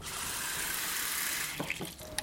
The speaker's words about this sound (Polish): Myślę, że musimy rozrzedzić tą wodę, czyli wylej do połowy. I jeszcze raz zimna woda.